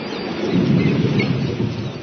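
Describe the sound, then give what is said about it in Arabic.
Thunder rumbles through cold, rainy weather as a deep, loud, continuous roll that stays fairly steady for about two seconds, with no voices. “أوه صوت الرعد مخيف، لكنه يأتي بالخير للمطر.”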